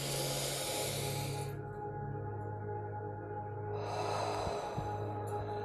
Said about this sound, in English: And with that natural exhale of breath at the end, just hold it for a moment longer. That's all. And so with that breath in,